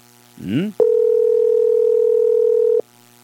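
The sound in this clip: A telephone ringback tone sounds on a call that goes unanswered: a brief rising chirp, then one steady, loud, mid-pitched tone that holds for about two seconds before cutting off.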